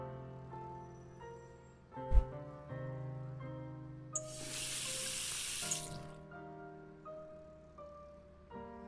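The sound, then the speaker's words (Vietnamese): Tap water gushes into a sink as a frying pan is washed. The burst of running water lasts about two seconds, stays quiet beneath steady background music, and follows a sharp clunk. “Rồi, rửa chảo cho sạch.”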